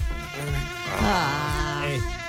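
Mosquitoes and horseflies buzzing at an open window: a whining, droning hum whose pitch wavers and slides up and down, fairly loud and continuous, with no talking.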